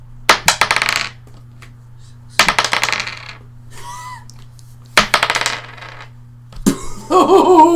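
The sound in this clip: Three six-sided dice clatter across a surface in a few separate bursts of sharp, rattling clicks that quickly die away, over a low steady hum, with faint voices in between.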